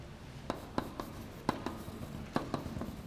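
Pen or chalk scratches out writing in a handful of short, sharp strokes at an irregular pace, dry and fairly crisp against a quiet background, with no voice.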